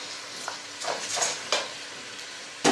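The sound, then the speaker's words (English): Stirring a rice mixture in a pan: a few scraping strokes of varied length over a steady, soft sizzle of frying, with no voices. “And we mix. We mix nicely everything together.”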